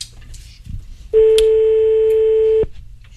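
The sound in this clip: A phone call rings unanswered: one steady ringback tone of about a second and a half sounds alone, with quiet background noise before and after.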